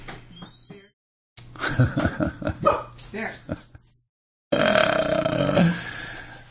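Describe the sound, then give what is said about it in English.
A big dog barks in a home studio, a few bursts of sharp, gruff barks with short gaps between them, and voices talking alongside the barking. “home studio, you never know what's going to happen, but he got on the air, so now he's part of the podcast. And that's the big dog. That's the one big dog we have.”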